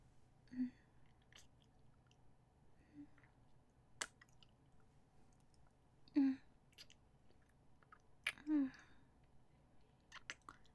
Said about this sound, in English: Hang on. I need to lick the wound on your neck. It'll close up the holes.